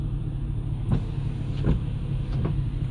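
Steady low rumble of a car being driven on a gray day, a continuous engine and road drone with a few brief, faint ticks rising over it and no voices.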